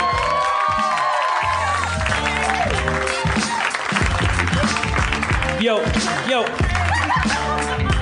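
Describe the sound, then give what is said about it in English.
An audience applauds and cheers a host's entrance at a live show. Dense clapping and crowd noise fill the full eight seconds, with voices rising over it. “Put your hands together for the mayor of Harmontown, Mr. Dan Harmon.”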